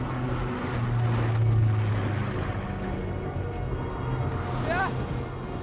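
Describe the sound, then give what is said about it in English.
A German Heinkel bomber flies over a minesweeper and moves off, its engines a continuous low, rumbling drone that holds fairly steady and swells slightly early on. “The German bomber passes over the minesweeper without dropping its bombs. The Heinkel's moving off!”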